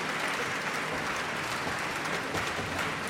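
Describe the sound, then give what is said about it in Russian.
Audience applause fills the hall at the final of a YouTube composers' competition, a steady, dense wash of many hands clapping at an even level throughout. “эти аплодисменты совершенно точно говорят о том, что Полина действительно заслужила приз зрительских симпатий.”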